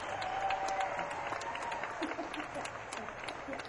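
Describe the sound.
Audience applause and some cheering greet a band member being introduced at a concert. The clapping is a steady, dense patter that carries on under a speaking voice.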